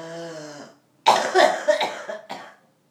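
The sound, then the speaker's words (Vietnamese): Forceful coughing during a breathing meditation to clear the lungs, a short bout of several harsh, rasping coughs in quick succession, loud and alone. “Ho cho thoát rồi lại buông lỏng và chú ý nghe hơi thở.”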